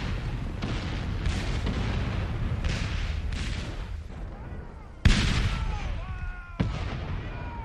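Artillery fire in a battle makes a dense, continuous rumbling roar broken by two sudden heavy booms near the end, each followed by a rolling decay.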